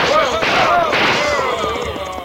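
Gunfire in an Old West holdup, shots fired over people's heads: many sharp cracks and booms pile up in a dense, loud barrage, with men shouting through it.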